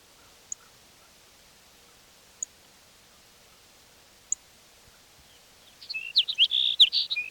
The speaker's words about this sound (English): sparrow number 6.